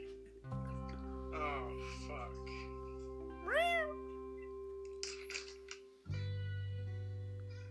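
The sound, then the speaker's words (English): A cat lets out a single meow that rises then falls in pitch, standing out loud and clear between stretches of people talking over a low steady hum. “Your cat just said, okay.”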